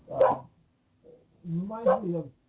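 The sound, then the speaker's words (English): A dog barks: a short, sharp bark, a faint brief yip, then a longer, drawn-out bark with a wavering tone, all at moderate loudness. “That's my dog Angel.”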